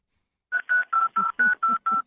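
Telephone keypad dialing tones: seven short, evenly spaced electronic beeps in quick succession, steady and fairly loud with no voices.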